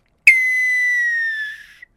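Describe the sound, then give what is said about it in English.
A little red whistle gives one long, loud, steady blow whose shrill tone sags slightly in pitch and weakens before stopping abruptly, with no voices. “I knew I could count on the little red whistle to not do what it was supposed to do.”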